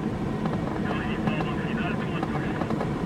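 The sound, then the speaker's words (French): Engine of a 180-horsepower Commodore tow plane straining at full power while towing a glider on takeoff, a loud, steady droning roar that holds throughout. “Le remorqueur Commodore rampe 2 secondes de plus. L'empennage frétillant, il rougit sous l'effort. Puis, Rouspéter, rageant de ses 180 chevaux, il lève son nez d'ivrogne et s'accroche dans le ciel.”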